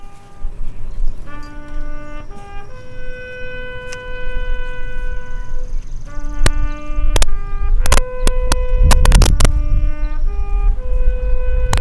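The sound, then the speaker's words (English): A bugle plays taps at a veterans' memorial: long sustained brass notes rising and falling in a slow melody over steady background noise, with a burst of sharp clicks and cracks near the end. “We will now honor our departed veterans with the rifle salute and taps.”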